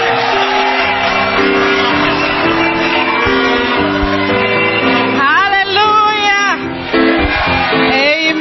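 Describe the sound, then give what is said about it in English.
Church audience shouting and cheering in praise of their general overseer, a steady, loud mass of voices over sustained musical tones. “Let's clap our hands for our powerful general overseer.”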